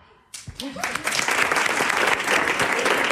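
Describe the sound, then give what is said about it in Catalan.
Live applause at the Orfeó Lleidatà: after a brief quiet moment, clapping breaks out sharply and swells into loud, dense, sustained applause from a large audience. “Aquests aplaudiments no són gravats, eh? Estem a l'Orfeó Lleidatà celebrant aquest intangible.”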